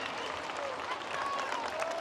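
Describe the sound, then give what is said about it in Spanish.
Roadside spectators applaud riders at a professional cycling race on a hot day, about 2 km before the first pass over the finish line. Steady, dense clapping continues evenly throughout. “Ahí con la gente ya también aplaudiendo.”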